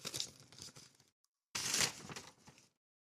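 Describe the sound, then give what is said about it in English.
A paper envelope being torn open in two short, crisp ripping bursts separated by a brief silence, fairly quiet and with no voices. “See what this first envelope contains.”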